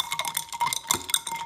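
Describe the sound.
A spoon stirs a homemade latte, tinkling against the cup in many quick, light metallic clinks with a ringing tone, uneven in rhythm and fairly faint.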